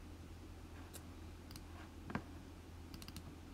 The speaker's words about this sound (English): I'm just going to be sat here while I click some buttons.